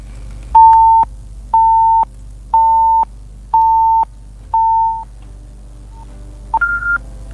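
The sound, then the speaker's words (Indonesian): Telephone call tones while calling a listener: five even beeps of the same pitch in a steady on-off rhythm, then a short, higher two-part tone. Loud and alone, with no voices. “Ayo, manggil lagi deh yuk.”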